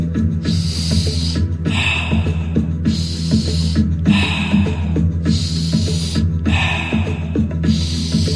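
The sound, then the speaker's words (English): Deep breathing in through the nose and out through the mouth in an even two-count rhythm, the breathy rushes of air alternating steadily over soft background music. “In through the nose and out through the mouth. So when you're ready, it's going to sound like this.”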